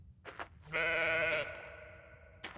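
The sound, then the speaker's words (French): A single bleat from an animal on a mountain slope, a nasal, wavering cry that swells loudly and then tails off, with faint soft sounds just before and after it. “Parfois, je l'entends bêler.”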